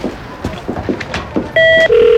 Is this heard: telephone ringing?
yes